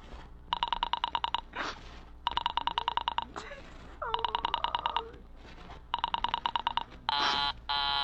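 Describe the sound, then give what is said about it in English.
A telephone rings in repeated bursts of pulsed, trilling tone while a call to a Murray Hill number meets a busy line, closing with a steadier tone; brief voice sounds come between the rings. “I'm sorry, Murray Hill 40098 is busy. I will call you. I can hear it. You don't have to tell me. I know it's busy.”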